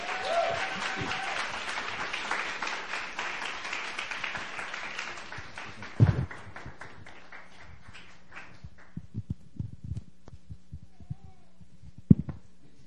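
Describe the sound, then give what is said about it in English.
A church audience in Itaewon applauds as Pastor John Kim is welcomed up. Dense clapping lasts about six seconds, then thins into scattered claps over a low hum. “So let's put our hands together. Welcome up Pastor John Kim.”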